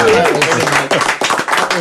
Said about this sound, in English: I get a round of applause.